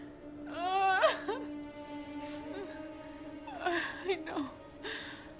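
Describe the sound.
A woman sobbing in bed, with wavering, whimpering cries and gasping breaths that come in two main bursts, separated by quieter moments.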